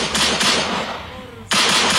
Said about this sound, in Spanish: Y se ganaron ustedes el disparo de la pistolita.